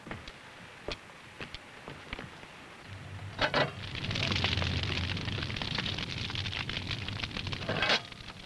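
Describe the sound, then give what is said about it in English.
A wood fire crackles in a heated bread oven as sticks are added. Sharp, scattered pops and snaps come first, then a steady roaring rush of flames with more crackles mixed in. “Now, you get over here and put these sticks on the fire.”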